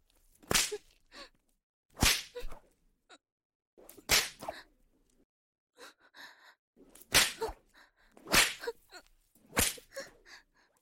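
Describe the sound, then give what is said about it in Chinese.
A whip lashes a person in six sharp, loud cracks at irregular intervals, each followed by softer, brief sounds in the quiet gaps. “给我用鞭子抽醒他。”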